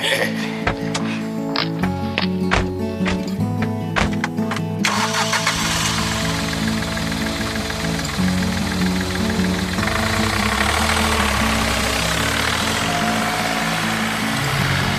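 A car engine starts after a few sharp clicking strikes, then catches into a steady, full, rumbling idle that carries on evenly.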